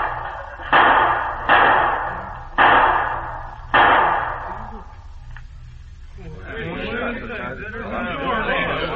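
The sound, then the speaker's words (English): Four sharp gunshots crack out in a saloon as two men shoot each other across the bar. The blasts come at uneven intervals, each loud and decaying quickly. A man's voice follows after a short pause. “Boys, French Pete and Kaneka Joe just shot each other to death over the bar.”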